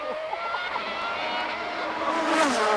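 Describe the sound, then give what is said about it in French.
A car engine runs continuously with a steady, moderately loud droning whine and no voices over it. “si vous découvrez bien évidemment le bruit du moteur que nous on écoute derrière nous.”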